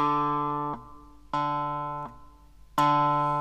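Clavinet, a keyboard with plucked strings, played: three bright, buzzy sustained notes in a low register, each slowly fading, with small mechanical clicks as the keys are released.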